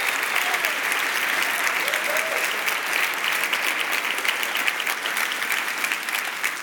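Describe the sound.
Church audience applauding to thank its volunteer teams, a steady, even clapping that stays moderately soft and unbroken throughout.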